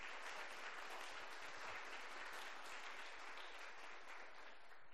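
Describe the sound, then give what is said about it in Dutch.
Applause in a church for teenagers who passed their exams: a steady, dense patter of many hands clapping at once, fairly soft and continuous throughout. “En ik wil toch wel even graag een applaus voor alle tieners die examen gedaan hebben.”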